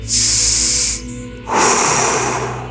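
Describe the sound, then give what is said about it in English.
A deep cleansing breath taken on cue: two loud, airy rushes of breath, the first about a second long, then a short pause before a second, longer one. “And now at three, I want you to take a deep cleansing breath.”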